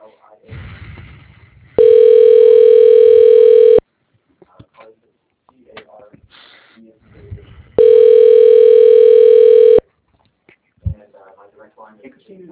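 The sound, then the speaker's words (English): Telephone ringback tone heard while a call is transferred to an extension: two loud, steady, long tones about six seconds apart, with faint voices and handset noise in the gaps between them. “let me transfer the line to his extension so you can cap the message for him”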